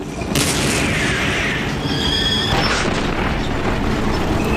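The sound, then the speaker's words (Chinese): A tank cannon fires a ranging shot during a tank battle on rough ground. A single loud boom comes near the start, followed by a long rumbling decay over steady heavy mechanical noise. “英国人率先开火，他们打响了坦克对战的第一炮。 我们保持之字路线，右方炮手进行试射。”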